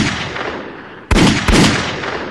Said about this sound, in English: The bullets strike Francis center mass, and he stumbles onto his knees.